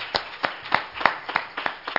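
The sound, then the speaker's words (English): A church audience claps hands in praise: seven crisp claps in a steady, even rhythm, fairly faint and with no talk over them. “Let's give the Lord a hand clap of praise this evening.”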